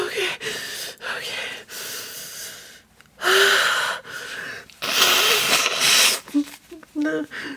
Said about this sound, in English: Let's take another deep breath, okay?